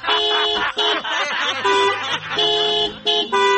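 A car's pressure horn honks in several loud, bright blasts of changing pitch, separated by short gaps.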